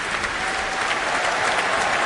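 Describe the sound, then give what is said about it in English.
Concert audience applauding a symphony orchestra's horn section after a performance: dense, steady clapping that forms an even, loud rush of sound with no pauses. “And now cheers for the horn section under the principal horn, Stefan Dohr.”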